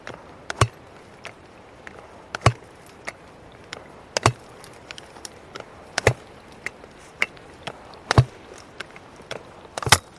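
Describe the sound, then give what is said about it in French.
Sharp strikes of a tool on dense glacier ice, snow packed halfway between fresh snow and glacier ice. Many crisp, irregular knocks and clicks, with a few louder blows standing out among them. “Là, ça tape sur la glace.”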